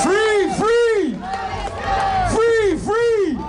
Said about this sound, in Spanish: Este es el sonido de los asistentes al concierto que se está celebrando en la capital austriaca contra la actuación israelí.